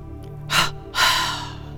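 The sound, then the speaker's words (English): Breath sounds from a breathing exercise: a short, sharp exhalation comes first, then a longer, fuller breath that trails off, both breathy and clear against a faint background hum. “The exhalation is also short, followed by a long breath, and sounds like this.”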